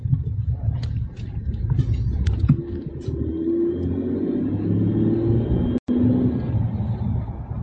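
A semi truck drives by with a loud, steady low engine rumble that fills the whole clip, broken by one brief dropout near the end.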